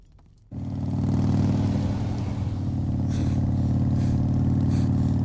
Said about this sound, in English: Okay, time out. Stop the bike. Time out. Come on, stop the bike.